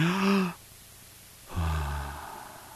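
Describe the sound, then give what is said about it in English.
A voice imitates a dying person's death rattle and last breath as two drawn-out, sighing voiced exhalations about a second apart. The second is lower in pitch and fades slowly. “if you heard the death rattle and if you heard the last breath of somebody, it sounded something like this.”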